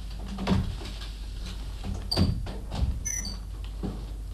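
An apartment door on a stairwell landing gives a few dull thumps and faint creaks over a steady low background rumble.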